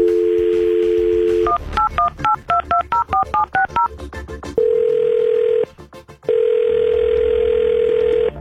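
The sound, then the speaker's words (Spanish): Telephone dialing with DTMF tones: a steady dial tone gives way to a quick run of short paired keypad beeps, followed by two long, steady ringing tones separated by a brief pause. “Ok, vamos a marcar.”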